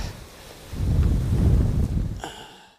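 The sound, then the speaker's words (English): Wind blowing through a forest, heard as a low, rumbling buffeting of gusts. It swells through the middle and eases toward the end. “seeking shelter from the wind in the forest is not an option this season”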